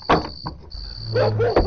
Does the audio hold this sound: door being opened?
yes